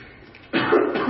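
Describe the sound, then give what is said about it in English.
Coughing after something went down the wrong pipe, a sudden harsh burst that begins abruptly and carries on as a rough, sustained hack to the end. “Excuse me. Wrong pipe.”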